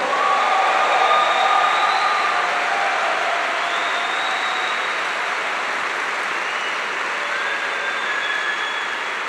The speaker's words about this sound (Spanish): Vamos, apláudele fuerte al Rey.